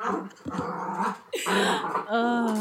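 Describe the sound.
An excited dog growls and whimpers in a continuous stretch of rough, throaty vocalising that ends in a higher, wavering whine.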